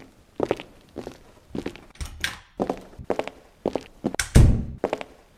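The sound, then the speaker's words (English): Footsteps of three people walking into a practice room: many dull thunking steps in a steady, overlapping rhythm, moderately loud, with no talking. “The three walk into practice room two.”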